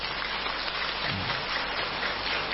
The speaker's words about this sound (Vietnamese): Nếu quý vị mong muốn thì vỗ tay, còn nếu không thì thôi.